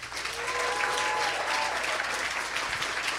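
Applause from a studio audience welcoming film critic Emily Yoshida of New York Magazine onto a panel, a steady, moderately loud burst of clapping that continues evenly throughout.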